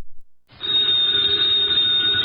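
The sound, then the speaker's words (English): An old telephone bell rings in a vintage radio drama, a steady, loud, bright ring that starts after a brief silence and continues unbroken to the end. “the ringing of that phone bell means adventure”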